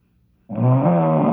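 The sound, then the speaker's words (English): A single loud snore starts abruptly after a brief silence and holds steady, a rough, buzzing low-pitched drone rich in overtones. “I think this is a real snore.”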